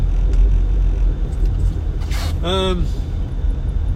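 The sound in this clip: Car with worn front brakes: a low, steady engine and road rumble, broken once partway through by a single brief, high-pitched squeal.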